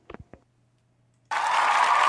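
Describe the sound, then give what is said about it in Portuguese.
Audience applause bursts in abruptly after a brief spoken phrase and a short pause, then continues as a dense, even wash of clapping until the end. “Beleza, um aplauso para Maribel.”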